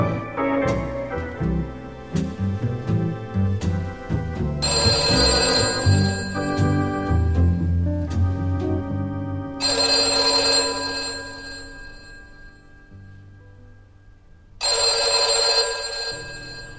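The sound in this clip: A telephone bell rings in three loud bursts, with music playing beneath the first stretch and pauses between the later rings.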